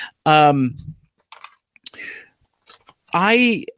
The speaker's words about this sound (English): Kingdom Red Alert here, as oh man, this is going to be a lot of cutting. So I'm gonna tell this story as I go, as I snip some of these ties.